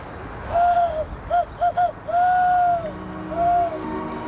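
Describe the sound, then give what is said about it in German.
An eagle owl calls with a few clear, tonal hoots of uneven length. Longer drawn-out hoots alternate with quick clipped ones, each steady in pitch and standing out loudly over a low background hiss. “Uhus, das sind so Nachttiere. Die, richtig, die genau. Können nachts besonders gut schauen. Die können nachts besonders gut sehen und die sind eben nachtaktiv. Nicht? Ich kann mich ja sogar ein bisschen mit ihm unterhalten.”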